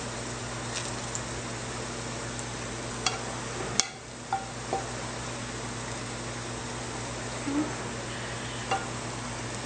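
Chicken hits a hot pan and sets off a faint, steady sizzling hiss, with a few small clicks and clatters along the way.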